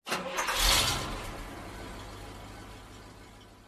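Fire truck engines starting: a sharp surge of cranking and revving that quickly peaks, then settles into a steady, low idling rumble that slowly fades, with no voices.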